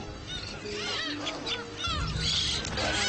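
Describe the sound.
Black-faced spoonbill chicks call at their nest in a run of short, high, squeaky notes that rise and fall, fairly quiet over a low background rumble.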